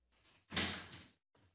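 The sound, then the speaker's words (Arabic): A door is opened for arriving visitors, quietly: a faint brief scrape, then a louder sliding sweep of about half a second, and a short soft sound at the end. “شوف الباب يا وليدي.”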